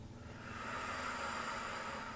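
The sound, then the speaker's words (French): Slow inhale through the nose during a guided belly-breathing exercise: a soft, steady airy hiss that swells slightly and holds for about two seconds, faint and alone. “Prends conscience du trajet de l'air au niveau des narines et de la gorge. J'inspire, je gonfle.”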